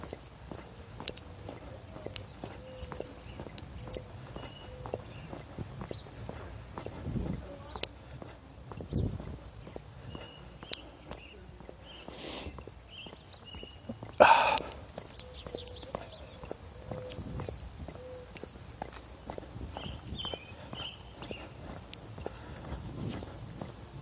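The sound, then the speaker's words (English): Footsteps of high school track runners passing by: faint, scattered patter and taps over a quiet background, with one louder cluster of impacts partway through. “Speaking of runners, here comes some high school track people.”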